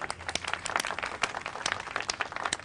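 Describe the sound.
Wedding guests clap in applause for the groom, a dense, steady patter of many hands that continues without a break.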